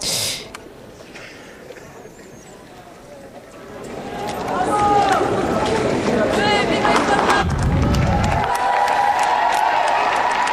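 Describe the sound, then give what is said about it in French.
Young people waving Holy See flags cheer and acclaim the Pope. Quieter talk fills the first few seconds, then a loud, sustained crowd roar swells in and holds to the end. “Voilà qui est acclamé.”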